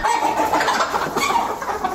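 Chickens cluck continuously on a small family chicken farm in Uruzgan province, a dense, steady stream of overlapping calls with no talk.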